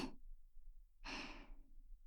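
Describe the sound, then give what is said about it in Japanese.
Soft, airy breath blown gently into the ear, heard as breathy puffs with no talking: a brief one clipped at the very start, then a longer, fuller exhale that fades out. “ママの甘い息ふうふうされるの好き？”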